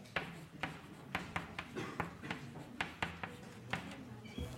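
Faint scratchy strokes of an equation being handwritten, many short strokes in an uneven rhythm with small pauses between them.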